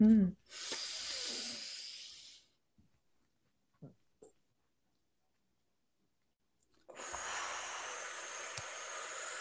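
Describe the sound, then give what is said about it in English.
A deep breath drawn in with a long airy rush, then several seconds of near silence while it is held at the top, before a long, steady breath out begins. “let's all take a deep inhale and hold it at the top”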